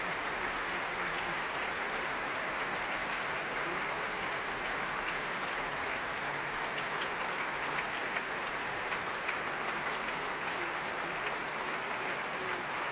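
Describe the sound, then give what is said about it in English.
Applause from a very large late-night concert audience after meditative, passionate music, a dense and steady wash of clapping that holds at an even, fairly loud level throughout without pause. “Very large and, as you can hear, very appreciative late-night audience for this meditative but passionate music.”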